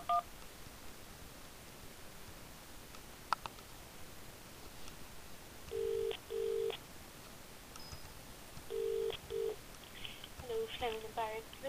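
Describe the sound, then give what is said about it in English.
Telephone dialing tones while ringing a caller back: several short bursts of electronic keypad tones in separated groups, with more rapid tones near the end, over a faint background hiss. “I'll hang up and ring you back.”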